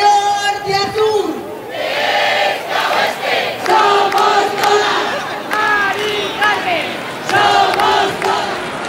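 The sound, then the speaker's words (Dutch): A street protest crowd in a Spanish city chants against high prices for renting and buying homes. Massed voices swell in loud, rhythmic shouted phrases with brief dips between them. “Tienduizenden mensen zijn er op straat gekomen tegen de hoge prijzen om woningen te huren of te kopen.”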